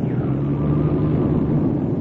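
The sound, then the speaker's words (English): A small airplane's engine drones in flight as it comes back after engine trouble. It holds a steady, low, fairly loud hum with a faint rumble throughout, and no voices are heard. “I think this motor's coming back. We're now at about 800 feet.”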